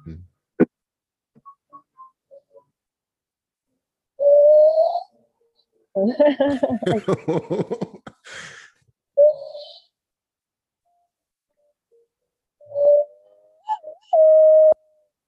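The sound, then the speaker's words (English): Brazilian Indian-style whistling: several sustained mid-pitched whistled notes in separate phrases, including a fluttering, warbling trill in the middle, with quiet pauses between them. “Maybe doing the Indian whistle. Indian whistle? What is that?”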